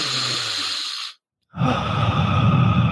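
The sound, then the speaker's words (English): A person takes a deep breath in during a guided meditation, heard as a long, soft, airy rush. A brief silence follows, then a second, fuller breathy sound with a low, rough edge. “Do it with me. Take a deep breath in.”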